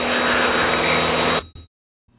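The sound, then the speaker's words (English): Steady, loud droning engine of a small propeller airplane just after a crosswind landing on the runway, holding an even tone before cutting off abruptly into silence. “Runway is made. Beautiful. Slight crosswind there, so I had to land one wheel first.”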